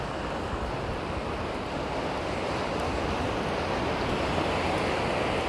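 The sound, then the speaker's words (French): Gentle ocean waves on a calm, soft-lit morning wash in as a steady, continuous surf hiss and low rumble, with no distinct breaking crashes and no voices. “Même la mer, elle est en catimini quoi. Elle, elle va tout doucement aujourd'hui.”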